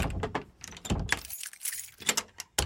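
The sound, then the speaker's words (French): An armoire door is closed with a burst of rattling clatter, quick knocks and jangling bumps in several uneven bursts, ending in a final thump. “Voilà, je peux refermer l'armoire.”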